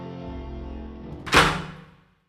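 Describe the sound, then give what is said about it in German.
A single dull thunk comes from a shower cabin door being locked from outside. It is a short, fairly loud knock that fades quickly over a low, sustained background. “Jetzt hat der Brenner ein bisschen zu spät bemerkt, dass der Präfekt die Duschkabine von außen zugesperrt hat.”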